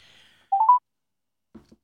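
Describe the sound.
Electronic telephone dialing beeps as a call is placed: a quick run of a few short mid-pitched tones after a faint high whine, then two soft low thumps in near silence.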